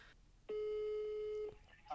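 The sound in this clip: A phone call's ringing tone plays as a single steady electronic tone lasting about one second, with a brief voice heard just before and after it.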